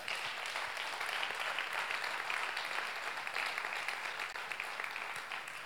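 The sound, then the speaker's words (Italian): An audience applauds at a Sunday church gathering with dense, even clapping that holds steady and fairly loud throughout, with no voices over it. “Vogliamo fare un applauso a loro?”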